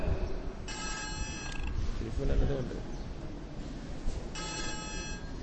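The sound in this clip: Telephone ringing from an incoming call, heard as two bursts of a bright, steady electronic ring separated by a gap, with talking and background noise underneath.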